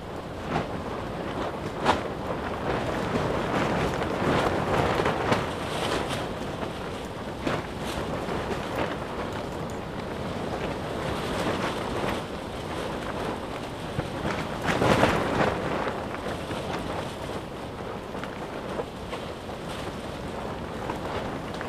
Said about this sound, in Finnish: Ja ton yli pitää laittaa sitten tällaiset suojaavat pressut. Ja tietysti tuuli tarttuu näihin ja antaa sitten täällä tällaisen erikoisen äänimaan.